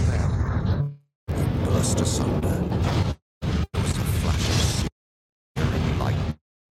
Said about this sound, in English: Thrice the great ram boomed. And suddenly upon the last stroke, the gate of Gondor broke. As if stricken by some blast,